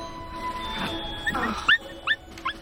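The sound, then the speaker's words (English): A white puppy with brown ears playing on a bed gives three short, high, squeaky yips near the end, over a faint steady background. “The white puppy with brown ears plays on Hannah's bed.”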